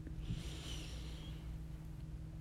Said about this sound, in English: Take another deep breath. And let it go.